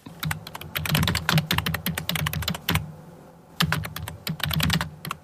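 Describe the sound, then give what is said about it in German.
Computer keyboards typing in an office: rapid, irregular clicking keystrokes at moderate loudness, in two busy runs split by a short pause. “So klingt es in vielen Berliner Büros längst nicht mehr.”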